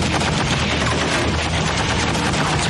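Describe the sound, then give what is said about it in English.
Browning M2 .50 caliber heavy machine gun firing in a dense, unbroken roar of rapid shots, loud and steady throughout with no pauses or voices. “A Browning M2 50 caliber machine gun.”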